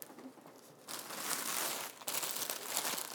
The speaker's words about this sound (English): Here, I'm gonna put it in this bag.